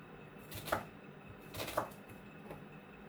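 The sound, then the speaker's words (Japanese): Knife slicing through a soft new onion being cut into large pieces: a few short, crisp cutting strokes at roughly even intervals, the last one fainter, over a quiet background with no talk. “あ、柔らかい。”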